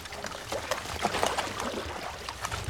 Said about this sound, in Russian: Из-под моста выплывают резиновые лодки. Гребцы – немецкие солдаты.